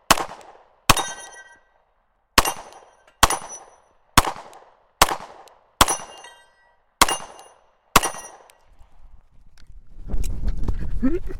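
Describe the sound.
Nine sharp gunshots from a shooter firing a timed competition stage. Each is a loud crack with a short ringing tail, spaced roughly a second apart with a longer gap after the first two, followed by a low rumbling noise.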